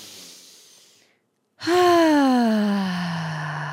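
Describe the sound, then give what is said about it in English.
A deep breath during a guided forgiveness practice: a soft breathy inhale, a brief silence, then a long, loud voiced exhale like a sigh whose pitch slides steadily downward. “Let's take that deep breath.”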